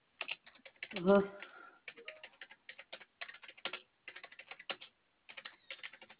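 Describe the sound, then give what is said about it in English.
Typing on a computer keyboard, many quick plastic key clicks in irregular bursts with short pauses between them, and a voice briefly heard near the start. “Oh, apparently I can't type.”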